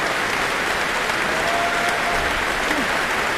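A classical concert audience applauds a violinist after a Bach presto. The dense, even clapping stays loud and sustained throughout without a break.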